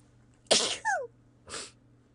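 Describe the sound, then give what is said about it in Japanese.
A person sneezes in a quick series of sharp, breathy bursts, with a short voiced gasp between them, over a faint steady hum. “くしゃみしちゃった。恥ずかしい。やばい、3回連続で出ちゃった。”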